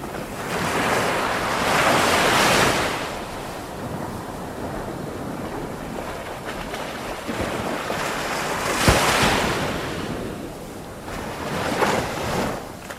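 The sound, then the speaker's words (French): Ocean waves roll in at the seashore while wind blows steadily, a few surges of surf swelling and fading over a constant rushing hiss, with no voices. “Arrivée au sommet d'une dune, elle aperçoit enfin... La mer!”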